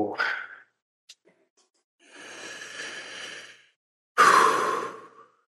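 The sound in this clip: Inhaling and exhaling a dab hit: a brief breath and a couple of small clicks, then a long, steady, hissing inhale and a louder, rushing exhale that trails off, with no talking.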